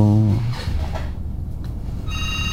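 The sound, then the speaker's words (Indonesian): Telephone ringing with an incoming call during an evening talk: a short, steady electronic tone opens, then a brighter, high ring sounds near the end over a constant low background hum. “kalau ada telepon kita berhenti dulu.”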